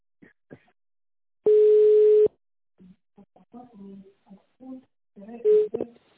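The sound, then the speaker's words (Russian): A telephone keypad tone sounds as a number is pressed in an automated sales-line phone menu. One long, steady beep is followed by a quieter recorded voice talking, then a second, shorter tone near the end. “Для связи с отделом продаж по городу Москва нажмите 1. Для связи с отделом региональных продаж нажмите 2.”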